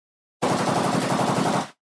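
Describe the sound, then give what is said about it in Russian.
An automatic weapon fires a single sustained burst from a neighboring property, a dense, rapid rattle of shots lasting just over a second, loud and alone against silence. “Со стороны соседнего участка звучит автоматная очередь.”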